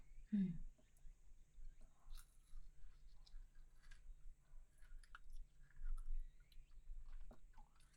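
Quiet chewing of a food with ice cream inside, made up of many soft, irregular crunches and moist squishes with one slightly louder bite near the start, heard alone without talk.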